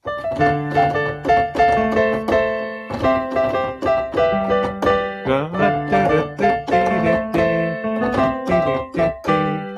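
Dance-pop music with bright plucked chord stabs over a steady beat and a repeating melodic hook, loud and continuous, with no clear vocals.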